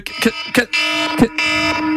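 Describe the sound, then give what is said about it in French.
An alarm clock ringing with a loud, harsh buzz that repeats in short bursts separated by brief gaps. “Qui a eu l'idée d'inventer ça? L'invention du réveil.”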